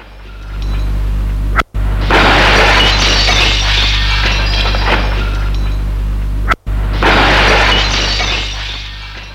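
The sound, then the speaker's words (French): A glass pane in an attic window being smashed: two long, loud crashes of breaking glass, each starting abruptly after a brief silence and full of bright, noisy shattering. “brise la vitre de la mansarde”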